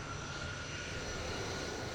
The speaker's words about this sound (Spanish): justo estamos viendo cómo ese segundo avión que llegaba esta tarde, el avión procedente de Luxemburgo y que es un avión medicalizado